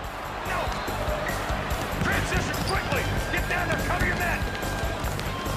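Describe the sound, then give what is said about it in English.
A basketball bounces on a court during a game, with repeated dull thumps amid running footsteps and voices. “The two teams race down the court. Dribbling the ball, a goon passes it to Seamus”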